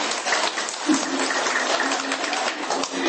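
Audience applause: many hands clapping in a dense, even patter that holds at a steady level for about three seconds, with no voices standing out.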